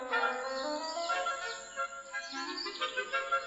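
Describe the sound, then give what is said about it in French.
Birds sing on a sunny morning along a forest path, a few quick bright chirps and rising calls over a steady tonal background, with no talk. “C'est une belle matinée. Le soleil fait chanter les oiseaux”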